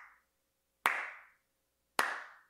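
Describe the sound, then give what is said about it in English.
Loud hand clapping by one person: two sharp, isolated claps about a second apart, each ringing out briefly, preceded by the fading tail of an earlier clap, with silence in between. “"That was real loud, I'm sorry. That was real loud for you." I can clap really loudly.”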